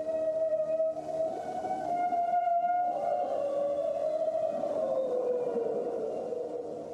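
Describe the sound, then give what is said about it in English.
Cry of a creature from a video game: a long, drawn-out, whale-like tonal call rich in harmonics, wavering slightly in pitch and sliding lower toward the end, heard alone and fairly soft. “That is not a whale call. That is the call of Lugia,”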